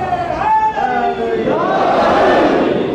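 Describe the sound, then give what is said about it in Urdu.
A crowd chants a slogan: one voice leads the call, then many voices answer with a loud, sustained massed chant that swells and holds. “اگر چاہے گرمی ہے لیکن نعرہ اتنا ڈھیلا نہیں لگنا چاہیے نا،”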